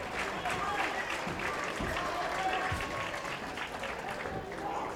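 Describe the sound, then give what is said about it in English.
A wrestling crowd claps and cheers in a steady, dense roar while a commentator talks over it, the noise holding level throughout. “Cage calling for the crowd to get KC going.”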